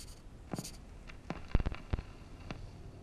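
Pen scratching on paper as a letter is written by hand: a series of short, dry strokes with brief pauses between them and a quick cluster near the middle, fairly faint, with no voices.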